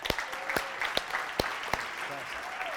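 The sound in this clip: A church audience applauds to welcome a speaker. Steady clapping mixes with scattered sharper claps, and a few voices are mixed in.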